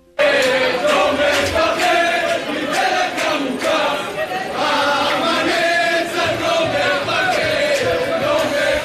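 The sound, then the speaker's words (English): Jubilant crowd singing and chanting at Ben Gurion Airport in Tel Aviv as passengers from a Fly Dubai flight emerge. Many voices merge into a loud, continuous wall of song with a steady rhythmic pulse. “Were some of the jubilant sounds tonight at Ben Gurion Airport in Tel Aviv. People waving flags and singing as passengers emerged safely after a terrifying ordeal aboard a Fly Dubai flight en route to Israel”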